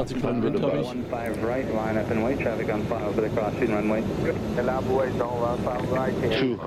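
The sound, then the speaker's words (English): An aircraft's engine drones steadily while it comes in for a landing. The drone runs under continuous, close talking that dominates the whole stretch. “So, everybody, buckle up. We are coming in for a landing.”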